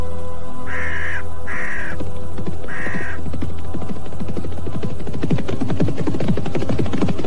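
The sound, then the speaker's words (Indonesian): Crows caw three times in loud, harsh bursts early on, then fall silent while a steady low throbbing hum continues underneath, in a village. “Pergi! Pergi kau burung-burung setan!”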